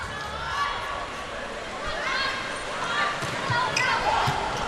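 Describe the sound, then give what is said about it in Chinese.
Volleyball serve by the Chinese team during a match, with a few soft ball impacts set against a steady, loud background of crowd noise and voices throughout. “看看中国队的发球”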